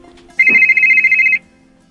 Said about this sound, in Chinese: 你们有一个电话